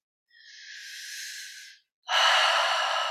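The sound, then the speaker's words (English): Slow, airy breathing from a person during a guided relaxation exercise: two breaths with a short pause between, the second a louder, fuller exhale carrying a soft sighing rush of air. “releasing through that grounding cord, releasing through that exhale.”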